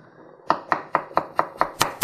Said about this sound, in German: wenn ihr jetzt frische Petersilie habt, dann schneidet ihr die jetzt auch